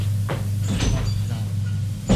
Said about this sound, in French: La porte est fermée à clé. Il essaie d'ouvrir. Elle est bien fermée.